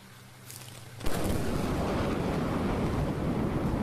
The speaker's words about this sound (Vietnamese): Tiếng sấm nổ dữ dội, cả lớp liền giật mình.